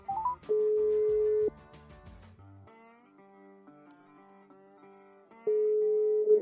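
Ringback tone of an outgoing telephone call: two long, steady beeps about four seconds apart, with a few brief tones at the start and soft melodic notes in the gap between beeps.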